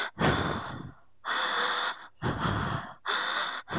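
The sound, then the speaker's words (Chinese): A voice imitates a loud, wheezing, asthma-like snore. Four rough, raspy breath bursts of similar length, each followed by a short pause, form a strained, steady rhythm. “但是她听到的那个打呼声是类似气喘的，就那种”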